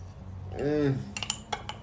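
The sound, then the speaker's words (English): Light spoon clinks and scrapes against a container as someone eats a smoothie, a few short bright taps following a brief low voiced sound. “I'm eating a delicious smoothie with a spoon. Because it's amazing.”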